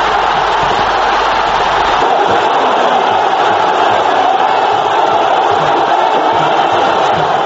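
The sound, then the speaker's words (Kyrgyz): Thousands of Morsi supporters gathered in Tahrir Square, Cairo, cheering: a loud, dense, continuous crowd roar that holds steady throughout without letting up. “Каирдеги айтылуу Тахрир аянтына чогулган Мурсинин миңдеген тарапкери Каварды кол чабуулар салют атуу менен кабыл алышты.”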